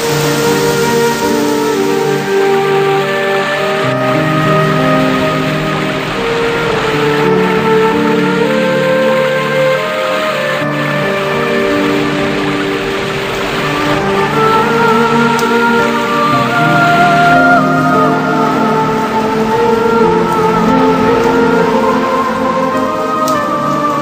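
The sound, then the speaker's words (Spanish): Rain falls in a steady, continuous hiss of drops, with sustained soft tones layered alongside it and holding an even loudness throughout. “Poco a poco, la lluvia se va tranquilizando.”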